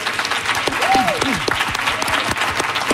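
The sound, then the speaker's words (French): About a hundred people gathered in an atrium in Montreal for a live Sunday show cheer and applaud. The clapping is dense and continuous, with a loud shouted voice rising over the crowd. “Les gens que vous entendez, c'est parce qu'aujourd'hui, on vous présente une émission spéciale d'apéro public du dimanche devant une centaine de personnes rassemblées dans l'atrium de Radio-Canada à Montréal.”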